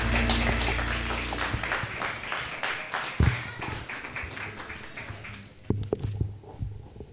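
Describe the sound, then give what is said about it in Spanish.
A church audience applauding in praise: many sharp, irregular claps form a busy patter that gradually thins, with a few louder isolated hits standing out near the end. “Den un aplauso a nuestro Señor.”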